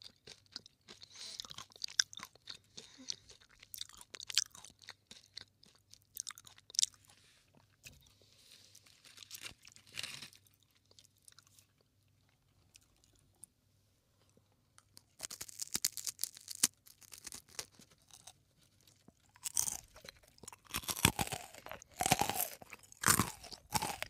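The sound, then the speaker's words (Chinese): Crunchy glutinous rice skewer with nuts being chewed: bursts of crisp, crackling crunches in clusters, with a quieter stretch of soft chewing in the middle before loud, dense crunching returns. “叫糯米串吧，超好吃。它里面还有坚果，”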